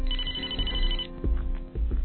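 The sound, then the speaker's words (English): A telephone rings with a bright, steady tone for about a second, then cuts off, followed by a few dull low thumps. “My damn phone won't stop ringing.”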